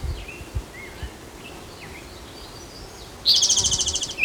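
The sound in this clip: A woodpecker gives a rapid call of many quick, high, pulsed notes near the end, standing out loudly after a long stretch of quiet outdoor background with a few faint low thumps at the start.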